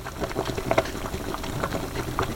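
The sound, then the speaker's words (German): Water boils with black-blue Frankenwald potatoes in it on a large wood-fired stove in a kitchen, a steady bubbling with many small pops and gurgles, heard alone without talk. “Auf dem großen Holzofen in Renate Gebeleins Küche brodelt das Wasser. Die schwarz-blaue Frankenwälder Kartoffel köchelt vor sich hin.”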